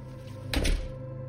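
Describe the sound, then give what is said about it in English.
A door being pulled shut lands as a single dull thunk midway through, brief and solid, over a constant low background hum. “He throws me some awkward glance as he quickly snakes through the door and closes it behind him.”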